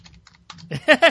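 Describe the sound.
Quick typing on a computer keyboard during an online search: a burst of soft, rapid key clicks, then a voice speaking loudly over the last part.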